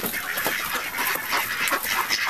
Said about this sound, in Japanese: アヒルさん、こんにちは。アヒルさんですか。カモですか。あなた何ですか。ああ、ガチョウみたいな。